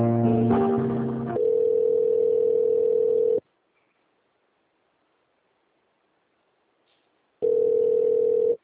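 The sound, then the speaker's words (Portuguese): Telephone line tones play while a call is transferred: a brief mix of tones, then a steady electronic tone that cuts off into silence for several seconds before the same tone returns. “Eu vou transferir para o Murilo, você fala com ele, tá?”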